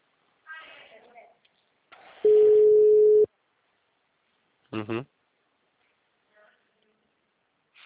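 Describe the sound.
A telephone ringing tone plays during an outgoing sales call: a single loud, flat, mid-pitched tone about a second long, with brief snatches of voice before and after it.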